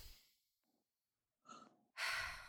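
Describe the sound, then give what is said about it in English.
A deep breath taken during a finger-tapping exercise: a faint exhale trails off, a soft rustle follows, and then comes one loud, full, airy inhale at the end. “Deep breath.”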